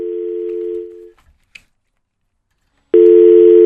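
Telephone busy tone after a dropped call: a loud, steady low electronic tone cuts off, a faint click is heard during about two seconds of near silence, then the tone returns just as loud.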